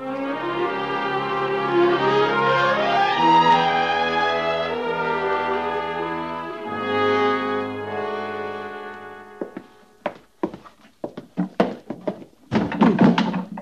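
Boxes are moved into living quarters: after a long stretch of music fades out, many irregular, hollow thuds and knocks follow, some loud and some faint, clustered unevenly toward the end.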